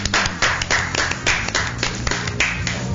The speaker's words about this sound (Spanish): Aplauso, por favor.